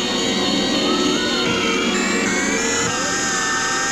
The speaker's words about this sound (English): The disc behind him spins slower and slower, and the time display stops at January 5th, 1900.